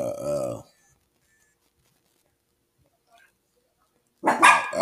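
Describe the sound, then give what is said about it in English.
Dogs barking in two short bursts, one at the start and one at the end, separated by several seconds of near silence. “Sorry, got my dogs with me. My dogs with me.”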